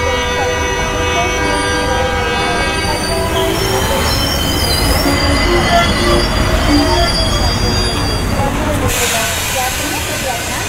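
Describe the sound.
Train at a railway station, its wheels squealing in high, steady tones over a loud, continuous rumble for about ten seconds, with a horn sounding.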